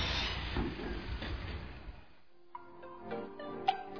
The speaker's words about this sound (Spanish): ¿Qué está sucediendo por debajo de mis pies? El metro está pasando.